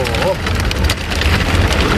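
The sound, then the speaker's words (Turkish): A sudden heavy rain downpour in Ankara makes a dense, constant hiss over a low rumble, with a voice heard briefly near the start. “Aniden bastıran sağanak yağış tüm hayatı felç etti.”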